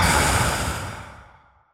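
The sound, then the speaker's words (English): A long, deep breath exhaled during a guided breathing exercise: a broad, airy rush that starts strong and fades away over almost two seconds, with no talking. “take one more deep breath in through your nose with gratitude. Exhale and just arrive wherever you are.”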